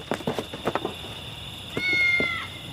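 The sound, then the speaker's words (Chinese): A stray cat meowing: a quick run of short sounds, then one loud, drawn-out meow that holds its pitch before trailing off. “有没事儿？那个野猫。 哈，一只野猫有啥可怕？”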